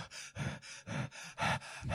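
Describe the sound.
Heavy, rapid breathing from a video game's first-person camera view in a horror game, as if the character is running. Many quick, rhythmic gasping breaths pulse evenly throughout, with no voices.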